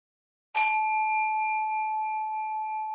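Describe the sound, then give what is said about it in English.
A meditation bell struck once to open a guided session gives a bright, clear ding that sustains as a steady, pure ringing tone and fades very slowly. “So with the sound of a bell,”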